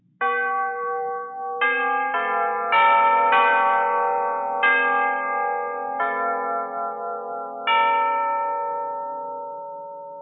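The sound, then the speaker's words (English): Orchestral chimes strike about eight bell-like notes at several pitches, each ringing out and overlapping the next, with the last note left to decay slowly. “Then there are instruments that play actual pitches, the chimes,”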